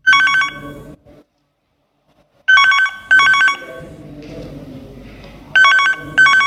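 A telephone rings loudly in repeated bursts of bright, warbling electronic bell tones, the rings coming mostly in pairs with short silent or quieter gaps between them.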